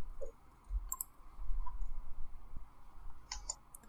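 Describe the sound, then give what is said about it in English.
Mouse clicks on tokens in an online tabletop game: a few faint, sharp clicks scattered over a soft, constant background hiss, with no voices. “Click on your tokens and roll initiatives,”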